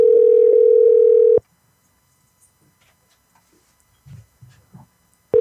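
Telephone dial tone heard while placing a call, a steady loud tone lasting about a second and a half that cuts off into near silence with a few faint rustles, then briefly returns at the very end.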